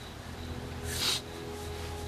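A single sharp sniff after crying, from a man catching his breath, stands out briefly against a low, steady background hum.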